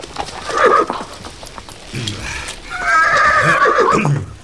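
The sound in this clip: Neighing of a horse while being ridden, with a short whinny early on, then a longer, louder, shrill whinny near the end, and some clip-clop of hooves.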